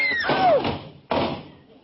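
A door with no doorknob, on an old house with a weak porch, is pushed hard and falls off its hinges: two heavy thuds about a second apart, the first with a short falling squeak.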